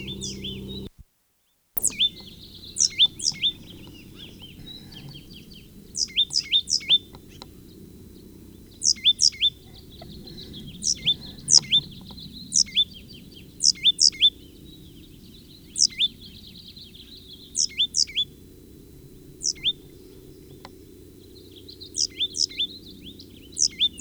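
Bird song in a pasture: bright, high chirping phrases repeat in many short clustered bursts, each made of a few quick notes, over a low, steady background rumble, with no voices.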